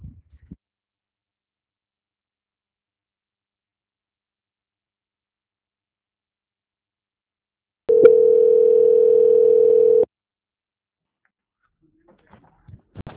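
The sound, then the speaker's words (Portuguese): A steady telephone line tone plays while a call is transferred to a bank's quality-control department. It is one continuous mid-pitched tone lasting about two seconds, loud and alone, with only faint brief sounds at the start and end. “Agradeço sua atenção e peço que aguarde em linha, que vou transferir o contato para o controle de qualidade”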